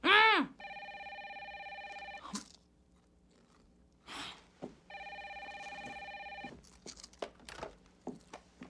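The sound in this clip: A telephone rings twice, each ring a steady, buzzing electronic tone lasting over a second, separated by a pause. Faint clicks and rustles sit around the rings, and a brief high chirp comes at the very start.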